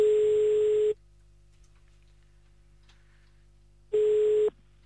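A ringing tone sounds while a phone call is placed back to someone: a steady, mid-pitched electronic beep. It comes in two bursts separated by about three seconds of near silence.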